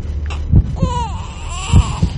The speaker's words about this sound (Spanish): ¿Se oye un bebé? Sí, de momento se oye un bebé